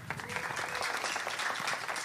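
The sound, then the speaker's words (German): An audience applauds for five children, a dense, steady patter of many hands clapping throughout, with no talk over it. “Ein Applaus für die fünf Kinder.”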